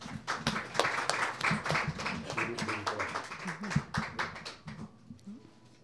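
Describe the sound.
An audience claps to welcome a songwriter to the stage. Individual hand claps stand out in a moderately loud, fairly sparse patter that thins and fades away near the end.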